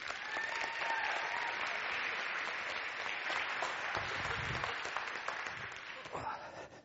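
A church audience applauds as its senior pastor is welcomed up, a dense, steady wash of clapping that fills the whole stretch and thins slightly at the end.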